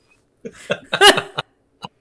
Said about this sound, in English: Sorry, that was snorting. Now you made yourself snort.